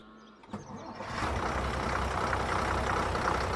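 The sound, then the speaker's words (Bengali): A loaded bus departs, its engine swelling after a brief quieter start marked by one sharp click into a loud, steady low rumble that continues to the end. “সাড়ে সাতটার মধ্যে বাস বেরিয়ে পড়ল মালপত্র আর কিছু লোকজন নিয়ে”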